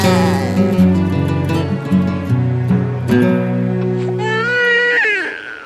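Newborn baby crying, a loud sustained wail with strongly pitched, wavering cries broken by short pauses, ending in a few sliding high-pitched sobs.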